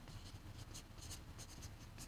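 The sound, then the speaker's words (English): A pen scratches across a playing card, the ace of hearts, as it is signed during a magic trick: a faint run of short, quick scratchy strokes. “And I'm also going to sign my card”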